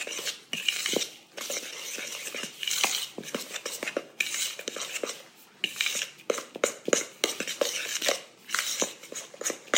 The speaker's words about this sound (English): Okay, so we're just going to stir this in.